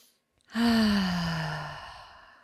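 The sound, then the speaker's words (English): A slow, deep breath let out as a voiced sigh during a guided breathing exercise before prayer. One long exhale begins abruptly, sinks slightly in pitch, and fades gradually, with no talk. “please take some slow and deep breaths with me. Starting on the first breath right now. A couple more.”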